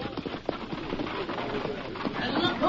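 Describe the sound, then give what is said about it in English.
Hoofbeats of a coach pulled by a six-horse hitch: many quick, uneven clip-clops over a steady rumbling clatter that grows slightly louder toward the end. “What's that? Must be one of the boys tooling the wagon. That's no it, wagon. It's a coach and a six-horse hitch.”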